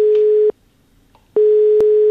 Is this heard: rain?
no

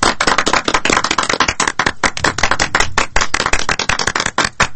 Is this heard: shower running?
no

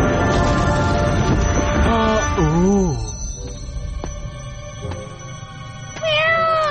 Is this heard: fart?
no

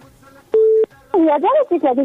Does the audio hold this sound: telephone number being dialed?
yes

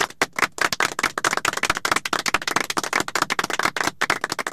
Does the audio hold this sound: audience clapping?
yes

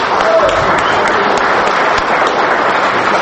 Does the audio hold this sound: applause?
yes

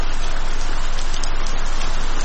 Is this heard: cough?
no

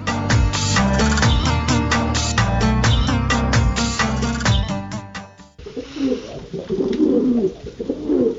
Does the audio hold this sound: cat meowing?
no

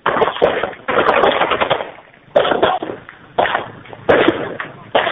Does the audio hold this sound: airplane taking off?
no

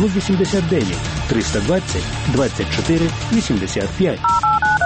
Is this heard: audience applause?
no

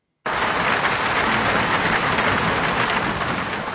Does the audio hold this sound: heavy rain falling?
yes

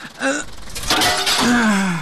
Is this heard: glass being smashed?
yes

